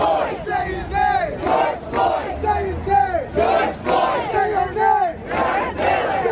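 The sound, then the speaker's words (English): Protest crowd shouting on a New York street in summer, many voices rising together in loud, rhythmic bursts of chanting that swell and fall repeatedly without pause. “By summer, the sound of our lives became protest and rage.”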